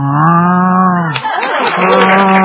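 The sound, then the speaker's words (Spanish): A person's voice imitates a cow mooing. A loud, low, steady droning moo holds for about a second, then breaks into a rougher, wavering second bellow. “ya que le hicieron una rana, le voy a hacer una vaca.”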